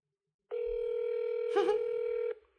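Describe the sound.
A telephone tone plays during a call attempt: one steady, loud beep lasting about two seconds with a brief warble near its end, then silence.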